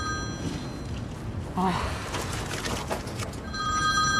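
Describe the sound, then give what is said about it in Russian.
An electronic telephone ringtone sounds at the start and returns near the end, a high, thin tone over busy, noisy background sound. “У брюнетки зазвонил телефон.”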